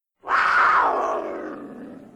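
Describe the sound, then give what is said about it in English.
A cougar gives a single loud, raspy roar that starts abruptly, holds strongly for about half a second, then gradually tapers and fades over roughly two seconds. “It's even better than a cougar noise. I'll put in a cougar noise at any opportunity now.”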